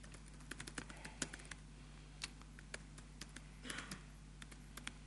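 Login credentials are typed on a computer keyboard: many faint, irregular keystroke clicks in quick bursts with short pauses, and no voices.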